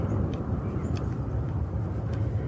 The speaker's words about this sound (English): Well, there goes an airliner.